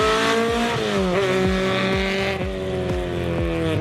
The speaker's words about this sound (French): franchement ça hurle, le moteur il prend 8000 tours. Pour un petit 4 cylindres, c'est quand même assez incroyable.